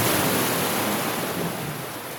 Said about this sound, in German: Und da hauen die Wellen gegen und spritzen dann durch den Tunnel durch.